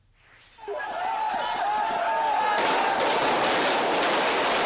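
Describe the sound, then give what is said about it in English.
Gunfire from soldiers shooting at anti-government protesters in Bangkok: sharp cracking reports that thicken into a dense, loud, continuous barrage over a noisy background. “That was the sound of gunfire heard in Bangkok earlier today. Soldiers fired shots at anti-government protesters who threw back gasoline bombs.”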